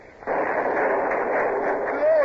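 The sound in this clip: A sailing warship's cannon broadside in a radio drama: a sudden loud blast opens into a dense, sustained roar, and a brief whistling tone appears near the end.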